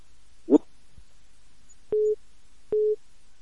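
A phone line tone sounds after a caller hangs up: two short, steady mid-pitched beeps, evenly spaced, preceded by a brief soft rustle and a low click on an otherwise quiet line.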